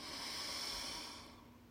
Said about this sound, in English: We're going to do that again. In through the nose.